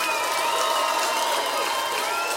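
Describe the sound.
Applause and crowd noise for a rock band at a music festival concert in Manchester: continuous dense clapping, with thin sustained tones running through it.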